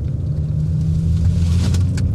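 Low, steady engine and road rumble inside a car as it drives onto the motorway, continuous and fairly loud throughout, with no talk.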